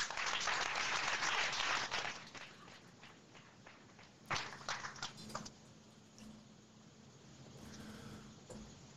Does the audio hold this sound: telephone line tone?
no